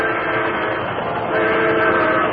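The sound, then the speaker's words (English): A fast-approaching train roars in a loud, continuous rumble that grows slightly louder partway through, with no voices over it. “The headlight of a fast-approaching train revealed the Lone Ranger”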